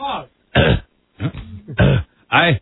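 Someone clearing their throat in a series of short, rough, voiced bursts separated by brief pauses, fairly loud and with no other sound around it.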